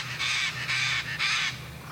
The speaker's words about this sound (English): they just come here to see the macaw